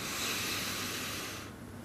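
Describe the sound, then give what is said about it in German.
A deep inhale through the nose: one long, steady, airy hiss that holds for over a second and then drops away, with no talking. “Atme einmal tief durch die Nase ein.”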